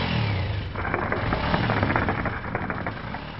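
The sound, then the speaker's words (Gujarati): A motorcycle engine with its silencer removed runs with a loud, rough, rapid sputtering putter that holds steady throughout, with no voices. “આ મોટરસાયકલનું silencer ત્યારે જ નીકળી ગયું હતું.”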